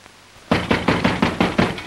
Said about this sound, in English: yanks on the latch, then slams his shoulder against the door